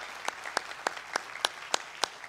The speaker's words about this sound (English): Hey, can we make some noise and welcome in our online Vineyard family? Come on, let's hear it for them